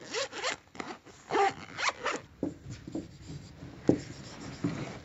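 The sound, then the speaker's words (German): Zipper of a pencil case being pulled open in a series of short, rasping strokes. Many quick bursts of scratchy zipping come in an uneven rhythm, fairly faint, with no talk. “Anschließend öffnen wir unser Mäppchen.”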